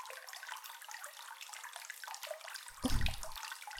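Water poured out to rinse, a brief low gush and splash near the end that rises briefly out of a steady soft hiss.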